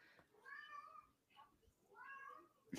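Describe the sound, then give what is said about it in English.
A domestic male cat meows inside the house while reacting to a noise overhead: a few drawn-out, wavering, mid-pitched cries, loud and clear, followed by a sharp click at the very end. “You can hear my cat meowing because he just heard it making noise.”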